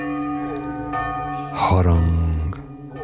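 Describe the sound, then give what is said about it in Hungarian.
A church bell tolls with a deep, ringing, sustained tone; a louder and fuller strike lands midway and then fades. “Harangkongás. Harangkongás. Harangkongás. Harangkongás.”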